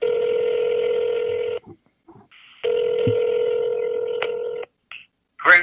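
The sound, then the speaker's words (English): Telephone tones from a touch-tone phone as a number is dialed: two long, steady electronic tones separated by a pause, then a few short clicks and blips near the end. “So we're about to dial him up.”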